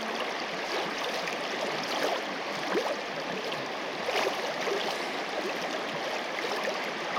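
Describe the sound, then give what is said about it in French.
Running water makes a steady, continuous rush with faint gurgling textures. The sound is moderately quiet and even throughout, with no voices. “Et vous entendez notre thème du jour, c'est l'eau.”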